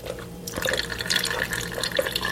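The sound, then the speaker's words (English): Rinse water pours off freshly made butter after an ice-water swirl. The water trickles and splashes steadily throughout, a little softer at the very start. “Swirl the ice water without the ice for about a minute or two. What that does is it rinses the butter and it also hardens up the fat. Then drain out the rinse water.”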